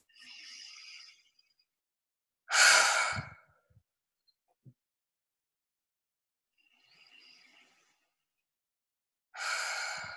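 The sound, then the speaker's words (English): Two slow deep breaths exhaled through the mouth, each a faint airy inhale followed by a louder, breathy sighing release, separated by long stretches of silence. “Just take a couple of deep breaths, and if you want to exhale through your mouth, if you have anything you want to let go of, just be like, just release that with a couple of deep breaths.”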